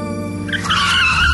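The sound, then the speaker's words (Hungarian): A car engine revs sharply as the driver drops into second gear and floors the throttle, its tone climbing briefly and loudly over about a second and a half. “Visszakapcsolunk kettesbe, és adunk egy kövér gázfröccsöt.”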